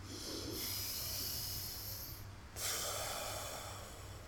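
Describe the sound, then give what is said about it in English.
A deep breath is taken during a guided breathing exercise. It sounds as two long, soft, hissing airflows separated by a brief pause, very quiet and alone. “Take a deep breath.”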